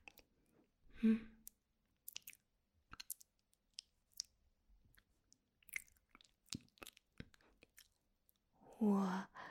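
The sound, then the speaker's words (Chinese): A mouth nibbles and chews on a finger, making sparse, wet clicks and soft, crunchy smacks scattered through quiet gaps, with a louder vocal burst near the start and another at the end. “我吃你的手指，你有什么感觉啊？”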